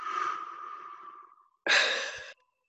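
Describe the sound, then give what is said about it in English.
Deep breathing from a guided breathing exercise, in through the nose and out through the mouth: a long, soft, airy breath that fades out, then after a short pause a shorter, louder and brighter rush of air that cuts off abruptly. “I'm going to do one more. In through your nose, and out through your mouth.”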